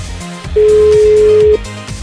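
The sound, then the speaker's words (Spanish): A phone call going to voicemail sounds one steady beep tone lasting about a second, clear and even, over low background sound. “No, carnal, nos manda buzón.”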